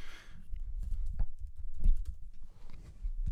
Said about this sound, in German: Lass mich noch kurz diese Mail zu Ende schreiben. Nur diese eine Mail. Lass sie mich schreiben schnell.